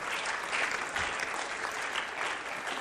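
Applause from a crowd welcoming a young author, a girl who wrote a book, onto the stage: a steady, dense wash of clapping that stays fairly soft and even throughout without a clear break.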